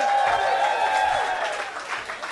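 A comedy audience claps to welcome a guest performer onto the stage. The applause is brief and fairly loud, then tapers off slightly by the end.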